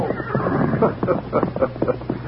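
Horses approaching with riders, heard as a rhythmic run of several clopping hoofbeats at a steady, fairly loud level.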